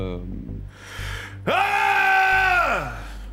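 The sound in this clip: A man lets out a loud, sustained roar lasting about a second and a half, its pitch jumping up sharply at the start, holding steady and strained, then sliding down as it fades. A shorter, lower, breathy vocal sound comes just before it.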